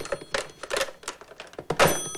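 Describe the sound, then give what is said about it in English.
Typing on a typewriter: a brisk run of clattering key strikes in irregular bursts, ending in a louder clack with a sustained metallic ring. “Replacing the cotton wool in his ears, Barton sits down again to type.”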